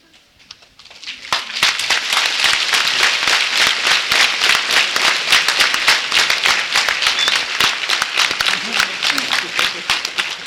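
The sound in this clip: A church audience at a service breaks into applause. The clapping swells quickly after a quiet first second into dense, loud, sustained clapping that carries on steadily to the end.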